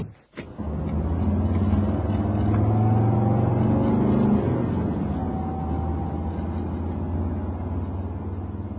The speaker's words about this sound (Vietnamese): May là đường không đông xe, nên tài xế taxi chạy nhanh được.